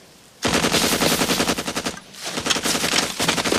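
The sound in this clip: Automatic gunfire in a Vietnam War setting, aimed at something moving in a pool: two loud, rapid bursts of rhythmic shots separated by a short gap.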